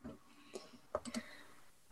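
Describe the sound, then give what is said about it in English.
A dice pool being rolled during a tabletop role-playing game, heard as a few faint, quick clicks of dice clattering together, with the sharpest ones bunched in the second half. “So, yeah, just roll that dice pool again then.”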